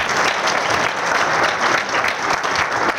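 A crowd applauds a performer with sustained, even clapping that stays loud and dense throughout, with no break or fade.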